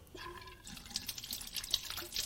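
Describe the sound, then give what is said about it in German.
Water running from a tap while a woman washes her face, a soft continuous splashing flow with light drips and trickles. “Ich kann mich nicht gleichzeitig waschen und Fragen beantworten.”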